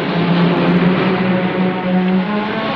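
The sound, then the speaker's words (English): A car drives on a tour through a vast quarry, its engine a continuous loud, steady drone with little change in pitch or level throughout. “The car tour continues”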